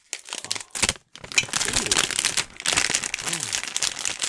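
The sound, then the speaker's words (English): Crinkling plastic wrap being peeled off a Ciroc vodka bottle, a close, loud run of crackles and rustles with a brief pause near the start before the crinkling continues steadily. “let's do that ASMR of this unwrapping of the Ciroc.”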